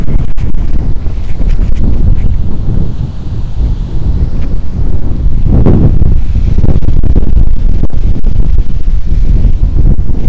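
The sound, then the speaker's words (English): Wind buffets a Maono AU100R microphone outdoors with a loud, continuous low rumble. The roar swells and dips throughout, with no voices. “Ooh, the wind. Let's see how this wind holds up.”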